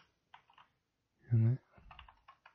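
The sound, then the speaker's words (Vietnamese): Computer keyboard typing while entering a value in a drawing program, a few light bursts of key taps separated by pauses, with a short voiced sound in between. “Ấn công cụ là L, kích vào màn hình, đánh số 100 đây.”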